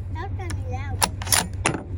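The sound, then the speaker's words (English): Suppressed rifle shot from a Tikka rifle fitted with a suppressor while zeroing at 100 yards: a muted, sharp crack among a few other brief clicks, with people talking at low volume around it. “So I'm sure you could tell the shot there wasn't too awful loud.”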